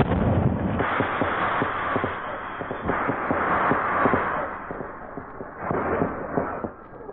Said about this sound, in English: Now, just one more thing to set off these emergency rockets. Now.